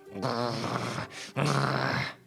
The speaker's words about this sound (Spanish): lo que le salió fue un perro grande con todo el pelo alborotado que gruñía fuertemente.